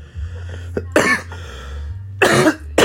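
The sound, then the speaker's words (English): A person with a persistent cough coughs a few times in short, harsh bursts broken by quiet pauses. “goodness, but I'll get rid of this cough someday.”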